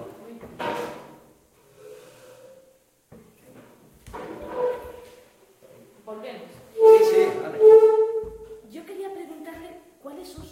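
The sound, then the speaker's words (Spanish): A chair being moved makes a strange noise: scraping knocks and a sustained, tonal creak or squeak near the end, mixed in with people talking. “Siéntese así, que esa silla hace un ruido extraño. ¿Sí? Hace como que... Voy a ver si esa silla es más silenciosa.”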